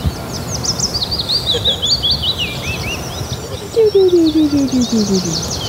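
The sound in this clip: A tree pipit singing while flying around: a series of high, sharp notes sliding downward, followed later by more repeated notes. The song is fairly faint over a steady background hiss.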